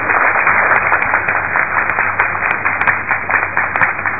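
An audience claps at a Telugu religious discourse. The clapping is loud, dense and sustained, with slightly uneven surges and a somewhat muffled, dull tone.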